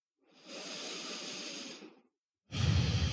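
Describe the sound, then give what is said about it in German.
Slow, audible breathing during a guided mindfulness meditation: one long, soft, airy breath lasting well over a second, a brief silence, then the next breath starting, fuller and lower. No talk. “Atme ein und aus.”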